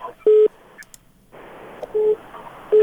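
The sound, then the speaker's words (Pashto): Disconnection tone on a radio call-in telephone line: three steady, mid-pitched electronic beeps separated by gaps of line hiss and faint noise. “متاسفانه دوی تلفن هم قطع شد”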